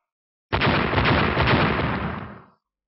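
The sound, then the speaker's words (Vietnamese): Loud, dense explosive bursts, staged as three sword-strike blasts in a fantasy duel, merge into one broad roaring boom that starts abruptly and fades over about two seconds, with no talk. “Ba tiếng nổ lớn vang lên”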